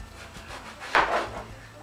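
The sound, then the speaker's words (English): A knife slices through an eggplant in one brief, crisp cut near the middle, a soft rasping scrape rising over low background hum before trailing off. “I'm slicing my eggplant.”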